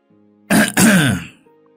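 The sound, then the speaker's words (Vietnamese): A woman clears her throat in one loud, rough burst split into two quick pulses, with a faint low tone before and after. “Thì vừa nói xong thì bà Tú hắng giọng, khiến ông bà giáo chỉ biết đứng im mà không dám ngồi”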